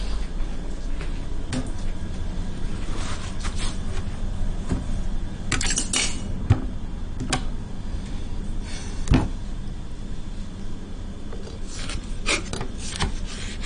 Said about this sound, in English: We're going to chop them and we're going to blend them to make it easier for the cook.